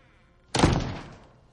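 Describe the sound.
An apartment door closing: one solid thunk sounds after a moment of near silence, followed by a short, fading rattle.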